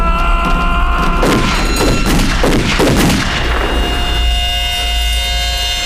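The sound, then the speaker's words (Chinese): Gunshots from a firing squad execution ring out as a ragged burst of several sharp cracks over a loud, steady droning background, which carries on after the shots die away. “准备上膛，瞄准，开枪。”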